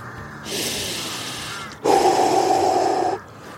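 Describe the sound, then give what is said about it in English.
A deep breath of fresh evening air taken outdoors on a high countryside vantage point: a long, airy inhale, then a louder, slightly voiced exhale that stops cleanly. “Taking a beautiful breath of fresh air there on the very last evening of February 2021.”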